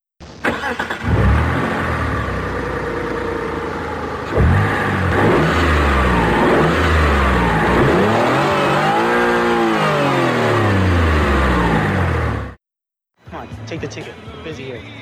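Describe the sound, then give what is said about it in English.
A car revving and driving off, its engine roaring loudly and continuously, pitch swinging up and down as it accelerates, before cutting off abruptly near the end, followed by a brief, quieter different sound. “And, hey, we got some car keys. Let's go for a little spin.”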